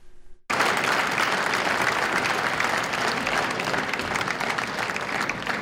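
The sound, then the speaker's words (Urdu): Applause from the audience opening a Sufi music concert in the United Nations General Assembly Hall in New York. Dense, steady clapping starts abruptly after a brief moment of quiet and holds at an even, loud level to the end. “تالیوں کی گونج اور ملی نغمے پر مبنی دھن سے new York میں اقوام متحدہ کے جنرل اسمبلی ہال میں صوفی میوزک کانسرٹ کا آغاز ہوا۔”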